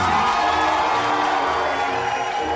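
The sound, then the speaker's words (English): A crowd cheers and whoops for a tap dancer, a loud, unbroken wall of audience noise that holds steady from start to finish. “Let us give another hoofers round of applause for Mr. Bill Bojangles”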